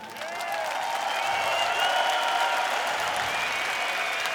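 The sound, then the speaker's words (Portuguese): Steady, dense applause from a concert audience in an arena, holding at an even loudness for the whole stretch without breaks. “queríamos também agora deixar um aplauso. Hoje é só aplausos”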